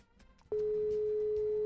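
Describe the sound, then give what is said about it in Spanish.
A telephone call ringing out with no answer: after a short stretch of faint background noise, a single steady, loud ringback tone holds at one pitch for a little over a second before cutting off. “Sonó. Ahora ojalá conteste. Ya sonó ya. Pero no contesta.”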